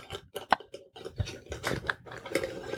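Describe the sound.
A glass pickle jar's lid is fumbled with, producing many irregular clicks, taps and short scraping rattles at varying loudness, with the sharpest knocks near the start and end.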